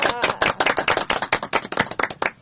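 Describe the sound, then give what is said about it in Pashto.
An audience at a quiz event claps: dense, rapid clapping from several people, loud and continuous for a couple of seconds. “چکچک ورته وهئ.”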